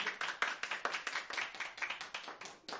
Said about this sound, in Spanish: Que pues si pueden escuchar los aplausos del público.